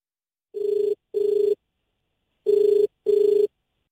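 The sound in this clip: A telephone rings as a phone-in call connects, sounding two double rings: four steady, mid-pitched electronic buzzes in two pairs, separated by a silent gap, with nothing else heard.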